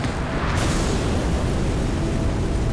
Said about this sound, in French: 6 mois plus tard, l'auberge dans laquelle il passe la nuit explose.